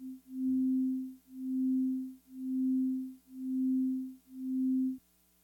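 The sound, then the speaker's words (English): A steady low-pitched pure tone with amplitude modulation swells and fades five times in a smooth, even rhythm, then stops abruptly. “The next one is just modulating the amplitude, so the volume gets louder and quieter, which you can hear pretty audibly.”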